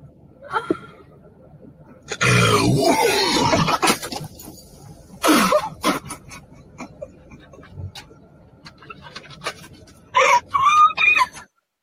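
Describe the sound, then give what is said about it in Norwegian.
Small groans and whimpers come from a young child with a sore tummy, in a few uneven bursts of moaning. Quiet gaps separate them, and the last sounds rise into a higher, whiny cry. “Hør på det lille stønnet.”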